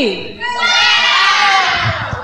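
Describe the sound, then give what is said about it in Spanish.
Men in a church audience shout a cry of joy, a loud, sustained, ringing shout from many voices that holds and then trails away. “Un grito de guerra a las mujeres. Grito de júbilo a los varones.”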